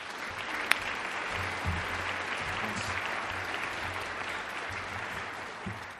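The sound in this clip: Applause from an audience welcoming a guest speaker to a school's Holiness Week: a continuous wash of many hands clapping, with one sharp click early on, easing slightly toward the end.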